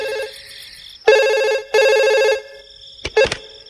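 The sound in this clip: A telephone rings at an old family house, with a bright bell-like ring in separate bursts: two long rings in the middle, then a few shorter broken fragments near the end.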